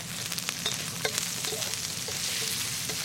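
Skinless sausage meat sizzles steadily as it is stirred and pressed down in a frying pan, with a dense, continuous crackle and small pops and no voices.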